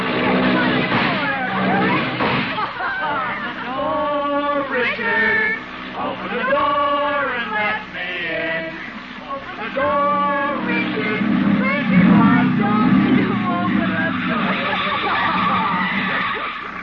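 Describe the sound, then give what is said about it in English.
A hopped-up jalopy hot rod skids as it drives, with several sharp, high tire squeals rising over a rough, constant engine and road noise. “She is sitting in the front seat of a hopped-up jalopy, or hot rod, with a young man named Jerry Walsh, who is driving, more or less.”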